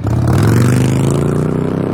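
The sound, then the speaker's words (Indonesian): A motorcycle engine drones loudly as the bike speeds through a red light, holding a steady, continuous growl for the whole stretch with no voices. “tuh orang ngebut bener bawa motor. Gak mikir nyawa apa ya? Pakai ngelanggar lampu merah lagi.”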